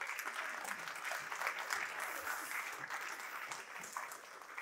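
Steady applause from an audience welcoming two guests up to a stage, a dense, even patter of clapping that holds at one loudness for the whole stretch with no voices above it.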